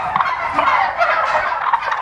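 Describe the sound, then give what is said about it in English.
A turkey gobbling, a continuous rapid, warbling chatter that stays loud and dense for the whole stretch, with no talking over it. “In the United States of America, turkeys are a symbol of Thanksgiving.”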